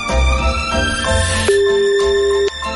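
A phone call rings out unanswered: a sustained electronic ringing tone lasting about a second over a steady tonal background.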